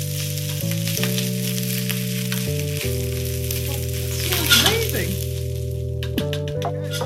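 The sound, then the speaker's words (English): Rice being stirred in a sizzling pan, the steady frying hiss broken by a short burst of scraping and clinking from the stir, all over sustained, steady tones. “Okay, I'm going to give it a little stir.”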